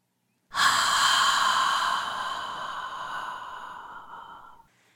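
A single deep breath drawn in or let out, loud and airy at the start, then tapering gradually over about four seconds before stopping, with no talking.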